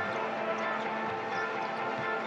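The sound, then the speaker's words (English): A basketball bounce pass during an NBA Raptors game, heard as a couple of faint, dull ball thuds under steady, even arena crowd noise. “Bounce pass Bogdanović.”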